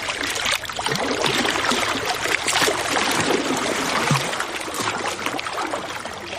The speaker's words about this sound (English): So it's no surprise that the sound you're hearing right now is one of our most popular requests. It's the soothing sound of Lake Michigan.